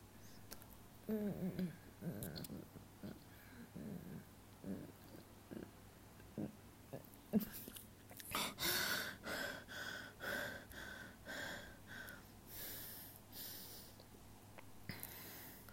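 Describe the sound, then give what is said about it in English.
Heavy breathing comes as many gasping, snorting breaths in an irregular rhythm, close and fairly soft, with some breaths louder than others. “Breathe. Let me breathe.”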